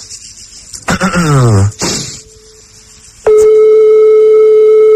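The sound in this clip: A ringback tone on an outgoing phone call: after a stretch of talk, one loud, steady, even-pitched tone starts partway through and holds unbroken to the end.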